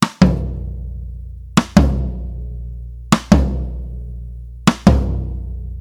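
Four couplets of drum hits: each is a sharp, dry click of a drumstick laid flat across a snare drum and striking its metal rim, followed at once by a booming tom strike that rings out and fades, evenly spaced, with no other sounds.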